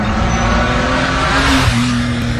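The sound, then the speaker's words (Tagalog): A car drives past with a loud, steady engine drone and a low hum that dips slightly in pitch partway through, with no voices. “Wow! Napakaangas naman nun! Ang ganda ng kotse! Kanino kaya yun?”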